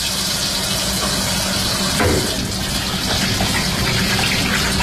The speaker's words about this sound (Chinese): 反复用清水冲洗，直到把鸡爪和猪脚都洗到洁白。